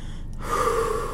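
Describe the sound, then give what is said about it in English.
A single long, deep inhaled breath, drawn in audibly through the mouth and breathy in tone, heard alone with no other sound and swelling slightly louder toward the end. “Start here with taking a long,”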